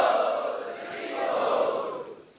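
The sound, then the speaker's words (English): A festival crowd loudly chanting "Hari Bol", a sustained roar of many voices that swells around the middle and then fades away. “Let us welcome these guests also to our festival by loudly chanting, Hari Bol! Hari Bol!”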